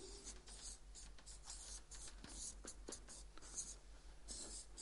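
Writing on a board: many short scratching and rubbing strokes follow one another in an uneven rhythm, quiet but distinct, with no talk over them.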